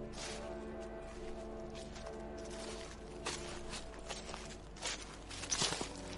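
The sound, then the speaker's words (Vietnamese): Footsteps splashing through water at night in heavy rain past midnight, a barefoot child wading, a few soft wet steps against a steady hiss of rain-like noise. “Đúng lúc này, từ hướng nàng đi tới, truyền đến âm thanh của một người đi bộ, xoạt xoạt trong đêm, dẫm lên nước nhép nhép.”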